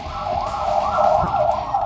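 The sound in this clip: An ambulance siren wails with a wavering tone that rises and falls. It stays loud and fairly even throughout, with no voices.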